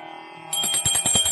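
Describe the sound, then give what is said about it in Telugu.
A hand bell rings at the start of Hindu puja worship, struck rapidly and repeatedly with a bright metallic clang that begins after a brief quieter moment and continues to the end. “ముందుగా గంట వాయించండి,”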